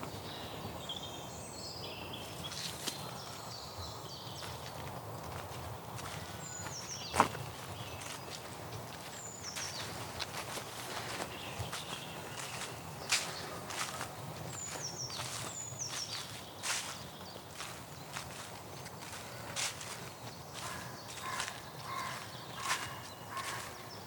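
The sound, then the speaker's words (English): Squelching footsteps of walking shoes sinking into sticky, claggy clay soil in a meadow, many soft irregular steps in a steady walking rhythm, with faint birdsong chirping in the background. “Very claggy soil, very clay soil here, and I can feel it really sucking up my walking shoes as”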